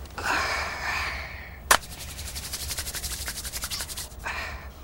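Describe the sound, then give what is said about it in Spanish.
Hands rubbing and massaging a foot in bed make soft rustling friction strokes, then a quick run of rhythmic rubbing in the middle, with one sharp brief click between them. “Le masajea un pie y lo calienta con su aliento.”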